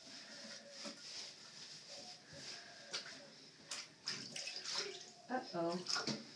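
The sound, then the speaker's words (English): Water splashes and runs in a bathtub as a dog is rinsed: a quiet, steady hiss broken by irregular splashes that become louder and choppier near the end. “Now you get to scrub him down. And then we'll rinse him.”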